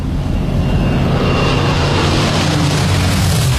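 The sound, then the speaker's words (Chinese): Spitfire fighter plane with a Rolls-Royce Merlin engine flying over, a loud, steady, broad droning roar with a deep low-end rumble that holds without a break. “你没看就知道， 劳斯莱斯马林发动机，大老远都能听出它美妙无比的声音。”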